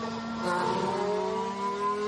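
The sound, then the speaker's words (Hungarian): A Formula 1 car engine, a Force India on track, gives a continuous high whine whose tone climbs steadily over about two seconds. “Sergio Perez a pályán a Force Indiával.”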